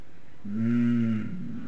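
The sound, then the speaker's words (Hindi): A cow lets out a single low, drawn-out moo with a rich, buzzing tone, rising into the call and then tapering off against faint background noise. “Chaitanya Mahaprabhu को देखते ही गाय क्या करने लगी, कैसे हूं मां,”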